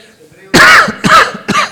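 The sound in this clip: A person coughs and clears the throat in three quick, harsh bursts within under two seconds. Each burst is loud and rough, and the first is the strongest.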